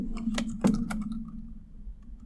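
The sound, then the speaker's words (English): Typing on a computer keyboard: a short burst of several crisp keystroke clicks in the first second, then only a low steady hum. “Let me just type that in.”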